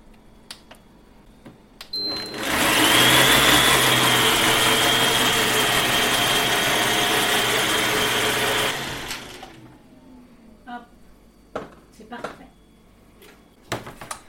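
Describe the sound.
A kitchen blender running at speed 6 starts with a sudden loud roar, whirs steadily for several seconds, then winds down to stillness, followed by a few sharp knocks and clicks.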